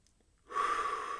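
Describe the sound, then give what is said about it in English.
A single long, breathy exhale-like rush of air, part of slow deep breathing in through the nose and out the mouth. It comes in after a short quiet start and holds steady and soft to the end. “a few deep breaths in through the nose and out of the mouth. And with each breath, just slowing down, lengthening the inhale, lengthening the exhale.”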